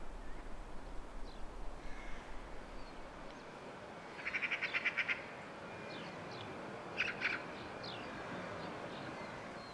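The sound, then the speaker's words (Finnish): Two magpies calling while flying around among fences and buildings: two bursts of harsh, rattling chatter, a longer one midway and a shorter one later, over steady background noise. “Kaksi harakkaa lentelee täällä Suopellantien ympäristössä.”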